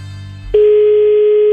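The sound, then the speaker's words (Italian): A telephone dial tone while a call is being placed: a single loud, steady, unbroken pitch that starts abruptly about a third of the way in and holds to the end, after a softer lead-in. “Sai che faccio? Mo chiamo.”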